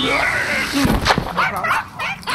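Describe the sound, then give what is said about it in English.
A dog gives a few short yips and high whimpers, with rising and falling whines over a noisy background. “No, that is not a book. That's that is a dog.”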